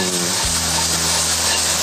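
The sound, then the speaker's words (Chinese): A steady, loud sizzling hiss as bean sprouts are stir-fried in a wok with shredded ginger, sliced garlic and onion in a little leftover oil, with no distinct stirring strikes. “这样炒一炒，要的是去它的水气”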